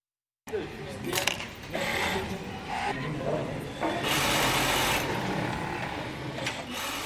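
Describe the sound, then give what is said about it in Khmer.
Sewing machines run in a textile factory in Rwanda, where hundreds of workers sit side by side at their machines. The sound is a dense, continuous whirring and rasping clatter that stays steady and loud throughout. “សំឡេងចង្វាក់នៅក្នុងរោងចក្រនៅរោងចក្រវាយនភ័ណ្ឌក្នុងប្រទេសរវ៉ាន់ដានេះកម្មករកាត់ដេររាប់រយនាក់អង្គុយក្បែរគ្នានៅតាមម៉ាស៊ីនដេរទាំងឡាយ”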